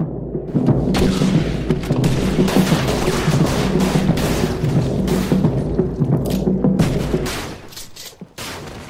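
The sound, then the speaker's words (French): Gunshots fired by police in a chaotic melee: many overlapping bangs and thuds over a dense low rumble. The sound stays loud and steady throughout and drops off near the end. “Pendant 5 minutes, il en résulta un chaos fracassant, au-delà des mots. Des coups terribles furent assénés, des coups de feu furent tirés.”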